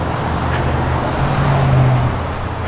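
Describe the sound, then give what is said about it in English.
Road traffic with cars going by: a steady, loud roadway rumble with droning engine tones that swells slightly mid-way, with no voices. “Bunch of traffic, they come in spurts.”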